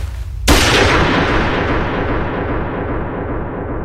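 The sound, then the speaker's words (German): A single gunshot is fired inside a room, a loud sharp crack that gives way to a long, slowly fading rumble. No voices are heard. “Der Schuss peitschte durch den Raum und die Kugel traf ihr Ziel mit tödlicher Präzision.”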